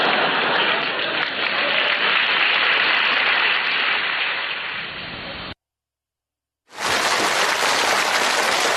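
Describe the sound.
Applause from a live audience at a comedic crosstalk performance, a dense steady wash of clapping that thins slightly, cuts out to silence near five and a half seconds, then resumes just as loud.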